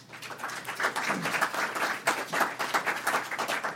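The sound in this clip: Audience applause welcoming an introduced speaker: a dense, steady patter of many hands clapping that holds through the whole stretch with small swells in level.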